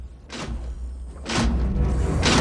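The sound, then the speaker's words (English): A metal floor grill is lifted, with three separate scraping clunks spaced about a second apart over a low steady rumble. “The mayor's crawling along the floor when he stops and looks down, realizing he's going over a grill, and tries to lift it.”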